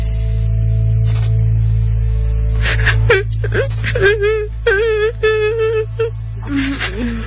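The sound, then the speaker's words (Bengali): A baby crying sound effect in a radio drama: wavering, whimpering cries come in short bursts over a steady cricket-like insect drone, with people talking. “বাবু কান্না করছে হয়তো, একটু দেখে আসো না।”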